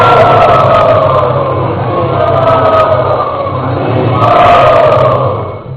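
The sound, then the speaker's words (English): A crowd chants loudly in welcome of a visiting teacher in Kuala Lumpur. Massed voices hold sustained, droning tones that swell and ease without a break for the whole stretch. “So let us again welcome Prabhuji very, very enthusiastically to Kuala Lumpur by loudly chanting.”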